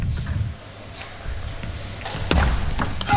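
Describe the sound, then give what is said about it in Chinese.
Table tennis play during a professional match serve: a few faint, sharp clicks of paddle strikes and ball bounces stand out over a low, steady background hum. “看看这个发球，”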